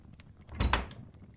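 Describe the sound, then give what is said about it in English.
A door being shut, heard as a short, fairly soft thump with a quick follow-up knock, isolated against a quiet background. “Please, come in. Shut the door behind you, if you'll be so kind.”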